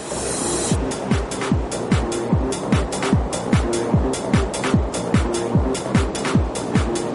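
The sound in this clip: Industrial machinery in a hot, dirty, noisy factory producing very long railway rails: a loud, continuous roar broken by a steady rapid rhythm of many repeated heavy thumps, no voices.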